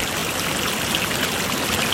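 A river flows in a dense, unbroken rush of water that stays steady and full throughout, with no voices.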